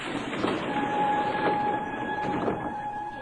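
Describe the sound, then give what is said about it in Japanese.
Subway train pulling into platform 1 of an Osaka station: a steady rumble with two sustained whining tones on top and three evenly spaced rhythmic clacks. “ただいま1番線に到着の列車は梅田、難波、天王寺から我孫子行きでございます”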